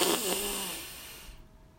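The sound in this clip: A deep breath drawn in through the nose during a guided breathing exercise: an airy rushing hiss with a brief nasal buzz at the start, gradually fading away.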